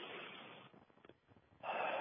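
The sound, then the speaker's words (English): Deep breathing during a seated meditation: a long rushing breath, a quiet pause with soft airy traces, then another strong breath sets in, with no talk. “So we should sit with your spine straight and your muscles relaxed and take a few deep breaths.”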